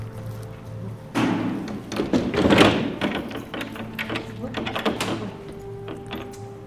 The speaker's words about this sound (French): Je vais fermer les volets.